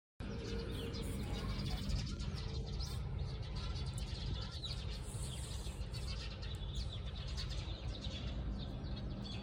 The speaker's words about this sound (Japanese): チュンチュンチュンチュンチュンチュンチュンチュン。